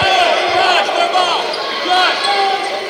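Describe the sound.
Basketball dribbled during a Rebels basketball game: repeated low bounces sit under a loud, steady wash of crowd noise and voices.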